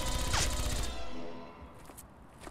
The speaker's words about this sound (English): I can't even take a peek. There's lasers all over the place.